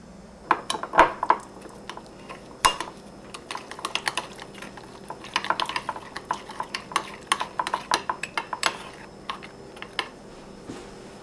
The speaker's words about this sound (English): I'm sorry, please mix all of the ingredients together.